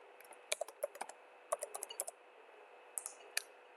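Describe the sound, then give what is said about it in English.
Keystrokes on a computer keyboard as a new folder name is typed, quick faint clicks in irregular clusters, then a short pause and a few more taps near the end. “I go to desktop, create a new folder named backup,”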